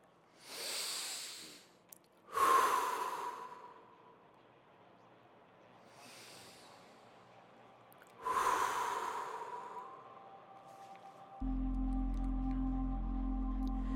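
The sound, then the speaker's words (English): Deep, slow breaths taken alone in near silence, with two loud in-and-out breath cycles and fainter breathing between them, followed by a low steady hum near the end. “And take two deep breaths with me.”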